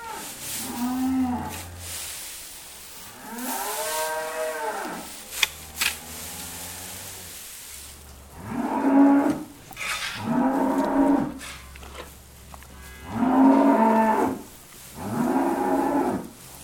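Hungry cattle moo repeatedly before their evening feed of grass and hay. The calls are loud, low and drawn out, coming as a series of separate bellows over a steady low rumble.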